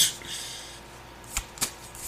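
Tarot cards being shuffled and handled during a reading: a brief papery riffle at the start, then two short, sharp card snaps, all faint against a quiet background.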